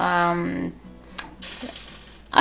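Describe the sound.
Tremella mushroom goes into a cooking pot: after a brief voice at the start, a small clink is followed by a soft, sizzling hiss that lasts about a second before a sharper knock at the end.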